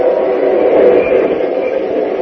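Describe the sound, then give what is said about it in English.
A freight train runs along the track on a narrow grade high above a river, a steady, dense rumble with clattering that holds at an even loudness throughout. “freight train winds like a puffing snake along a narrow grade from which the roadbed falls away for hundreds of feet to a swift-running river”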